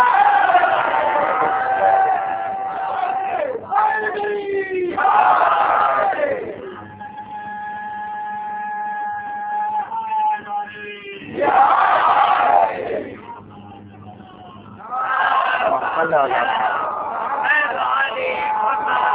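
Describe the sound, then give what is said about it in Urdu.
A crowd chants the Nara-e-Haidari slogan in several loud bursts of massed shouting. Between the bursts, a single voice holds a sustained chanted call before the crowd roars back. “آپ نعرہ حجری لگا دیں”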